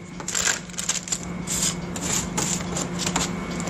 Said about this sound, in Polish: Wykrawamy sobie, mocno dociskając, żeby nam się całość odcięła.